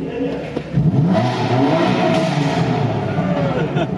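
A car engine revs, jumping from a low idle to a loud, sustained roar that holds steady for several seconds with slight rises and dips in throttle.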